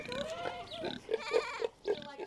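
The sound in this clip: Farm animals at a petting zoo and sanctuary make a few short grunting or bleating calls, mixed with a person's excited voice.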